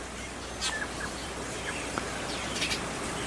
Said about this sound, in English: it's just really, really amazing here, the sound of the birds that are my beautiful, beautiful friends.